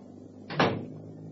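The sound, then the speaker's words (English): A door closes with a single short, dull thud over a faint steady hum, with quiet before and after. “close the door when you leave”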